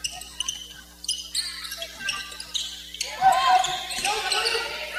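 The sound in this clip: Basketball dribbling on a court during a women's game, quick irregular bounces under a commentator's continuous talk and a busy crowd-like background.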